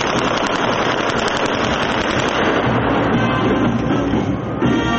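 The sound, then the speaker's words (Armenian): Demonstration gunfire at the opening of a military exhibition forms a dense, continuous crackling rattle of rapid bursts with no clear gaps between them. “Ցուցահանդեսը բացվեց ռազմական նվագախմբի եւ ցուցադրական կրակոցների ուղեկցությամբ։”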